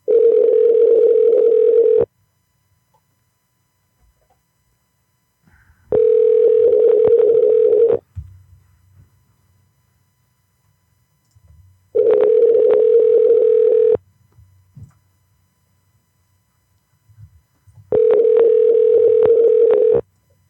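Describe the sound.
Ringing tone of an unanswered telephone call: four long, steady mid-pitched tones of about two seconds each, separated by regular pauses, with faint low noise between them.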